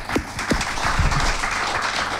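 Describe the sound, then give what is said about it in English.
An audience at a folk music evening applauds with steady, dense clapping at a fairly even loudness throughout. “Big round of applause for them.”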